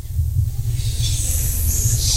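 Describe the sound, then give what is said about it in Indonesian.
A child imitates a snake's hiss, a breathy high 'sss' that swells in after a moment and holds steadily over a low background rumble. “tiru suara ular.”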